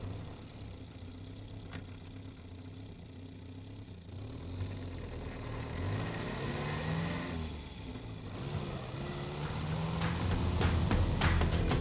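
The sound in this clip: A car engine hums low and steady while driving. The rumble stays fairly quiet and slowly grows louder toward the end, with no voices.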